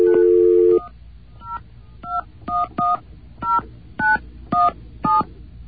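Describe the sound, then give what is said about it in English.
Touch-tone dialing of a telephone number: a steady low tone opens, then a string of short, evenly loud dual-tone beeps follows with brief gaps between them. “That guy only comes on when you don't dial enough digits, so I'm wondering if maybe this thing didn't work. Let's try again.”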